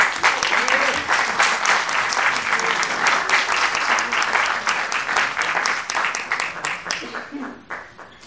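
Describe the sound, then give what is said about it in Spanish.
Audience applause welcoming a speaker to the stage at an anniversary event, a dense, steady roar of clapping that holds for several seconds, then thins and tapers off near the end. “Un aplauso para recibir a César González Chico.”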